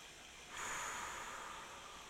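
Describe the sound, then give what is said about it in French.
A deep breath drawn in through the nose during a guided meditation: a soft, airy hiss that starts after a short quiet pause and holds steadily for well over a second, with no talk. “prendre une profonde inspiration par le nez et expirer”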